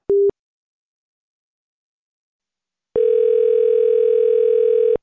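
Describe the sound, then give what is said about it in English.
A telephone hung up on a caller: a short electronic beep, a few seconds of silence, then a steady, unbroken dial tone that runs to the end. “I'm really sorry, sir. I'm gonna have to hang up on you. Have a nice night.”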